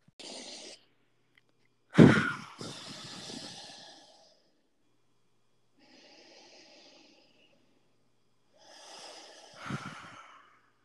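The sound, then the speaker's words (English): People take a few deep breaths, with loud, breathy inhales and exhales separated by short pauses. One breath near the start is especially strong, and nobody speaks. “Let's take two deep breaths together.”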